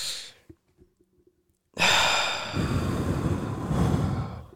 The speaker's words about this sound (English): Real quick, count of three. One big deep breath. 1, 2, 3.